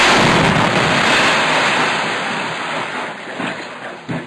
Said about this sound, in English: Then, last Thursday, a rocket hit the house where the activists were stationed.